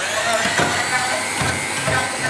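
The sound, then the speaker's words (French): An immersion stick blender whirs as it mixes garlic, lemon juice and a pinch of salt, a steady, loud motor drone with a gritty churning texture that holds level throughout. “Je vais mettre l'ail, 2 cuillères de citron. Donc 2 cuillères de jus de citron, okay. Une petite pincée de sel, et tu vas commencer à mixer.”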